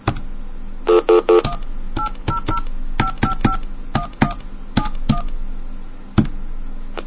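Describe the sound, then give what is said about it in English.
DTMF keypad tones on a phone line: a quick cluster of beeps followed by many short dual-tone beeps in an irregular sequence over a steady line hum and hiss. “Okay, let's see if a DTMF tone works. Oh, it does cut it off.”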